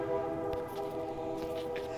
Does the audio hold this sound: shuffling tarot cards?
no